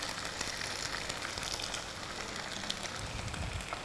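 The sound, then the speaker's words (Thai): Egg white frying in a little oil poured along one side of a tilted pan, giving a steady, even sizzle throughout with no talking. “นะคะโดยที่เราเอียงกระทะมาข้างหนึ่งแล้วก็ใส่น้ำมันไปนิดนึงนะคะด้านข้างแล้วก็นำไข่ขาวใส่ลงไป”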